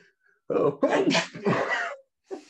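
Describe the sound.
A single sneeze with a voiced, drawn-out build and a loud burst, heard alone against silence, followed by a brief breathy sound.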